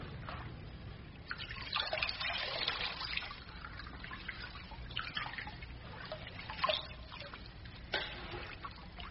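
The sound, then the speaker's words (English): Water trickles and splashes steadily as someone is washed, a soft continuous wash of liquid sound with a few brief louder surges. “going to wash you now.”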